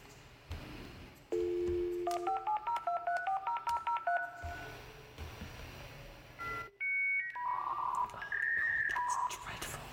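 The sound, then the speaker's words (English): A dial-up internet modem connects: a low steady dial tone, then a rapid run of touch-tone digits. After a short gap come shrill warbling handshake tones and screeching hiss. “So this is the sound of a dial-up internet.”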